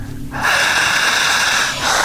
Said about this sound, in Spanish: sigan respirando, intensa, potente y jadeante.